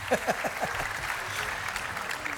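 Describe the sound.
Fans cheering and applauding at a concert in the Roman theatre of Les Nuits de Fourvière, a steady wash of clapping that opens with a few short falling whoops and carries on evenly to the end.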